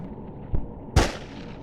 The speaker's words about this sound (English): Apparently that was a good shot. I think I'll try it at 300.